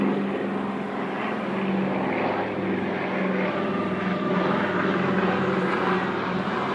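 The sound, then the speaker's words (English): Aircraft engine drones on the tarmac of Port-au-Prince Airport in Haiti just after the earthquake: a loud, steady, continuous roar with a low humming tone that holds without break, no voices. “It's from the tarmac of the Port-au-Prince Airport and from the medical tent in Haiti.”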